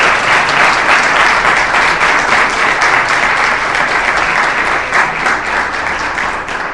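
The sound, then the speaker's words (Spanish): Sustained applause from an audience at a lecture event: dense, steady clapping at an even, loud level for the whole stretch, fading only slightly at the very end, with no voices standing out. “un fuerte aplauso para él y empezamos con un aplauso.”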